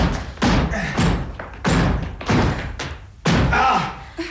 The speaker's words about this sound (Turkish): Evet, sanırım kapıyı kırmamız gerekli.